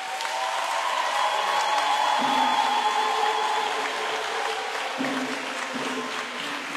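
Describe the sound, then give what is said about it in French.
A crowd at a gathering acclaims a priest with continuous applause and cheering, a steady noisy wash of clapping with voices calling out through it at an even level. “Si il aime l'homme, je souhaite qu'on l'acclame encore.”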